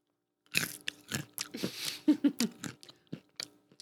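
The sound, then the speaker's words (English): Crunching on sweet and salty roasted Beer Nuts original peanuts: many crisp, irregular bites and chews in quick succession, moderately loud and alone, with no talking. “So we're about to see if that's true. That's how unique it is. Do a peanut ASMR.”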